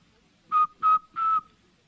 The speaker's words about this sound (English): larger hole between the lips through which to whistle, if you put your lips in the whistling position